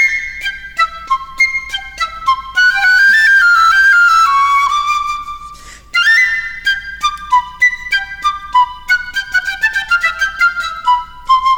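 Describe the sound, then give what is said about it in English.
A piccolo plays very high notes: a rapid string of short, detached notes, then a sustained line sliding downward, followed by more quick, bright staccato notes, loud and piercing. “The piccolo is like a flute, but much smaller, and it plays the very high notes in the orchestra, and it sounds like this.”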